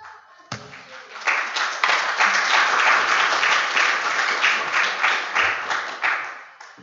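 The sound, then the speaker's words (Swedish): Applause for a preacher just before the sermon: a sudden burst of dense, many-handed clapping that starts sharply and holds steady and loud for about six seconds before it ends abruptly. “Det är inte varje dag predikanten får en applåd innan predikan.”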